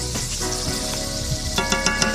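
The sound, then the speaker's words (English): Diced pancetta sizzles in extra virgin olive oil in a large high-sided skillet over medium-high heat. A steady bright hiss runs throughout, with a few sharp pops breaking through in the second half. “warm a couple of tablespoons of extra virgin olive oil into a really large high-sided skillet. I'm going to put that over a medium-high heat. To that, I'm adding 4 ounces of diced pancetta”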